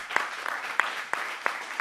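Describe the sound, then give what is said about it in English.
Applause from an audience at a community gathering honoring neighborhood councils, a fairly faint, continuous patter of many hands with a few sharper claps standing out at irregular intervals. “So a round of applause for you guys.”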